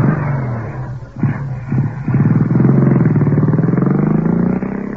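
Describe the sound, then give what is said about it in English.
Motorbike engine sputtering in a few brief bursts, then settling into a loud, steady throbbing putter as the rider gets going after fumbling with the bike. “Oh, now he's come back to his bike. He's on. He's off. He's picked the bike up and he's on again.”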